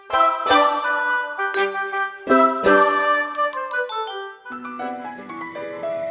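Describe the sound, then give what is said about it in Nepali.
A phone ringtone for an incoming call plays a bright chiming melody of many bell-like notes, loud and continuous with no voices. “रामेछापकी साथी निसाजीले पो phone गर्नुभएछ, उठाउनु पर्यो।”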